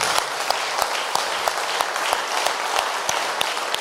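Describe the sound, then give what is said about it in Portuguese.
A church audience breaks into steady applause. The clapping is dense and even, with several sharper individual claps standing out from the blur throughout. “Palmas para Jesus.”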